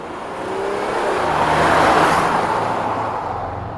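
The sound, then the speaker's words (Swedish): A car speeds past as bodyguards rush to a hospital in Ankara: a broad engine and tire roar swells to a peak, then fades away. “I ilfart kör Erdogans livvakter till ett sjukhus i Ankara i oktober 2006.”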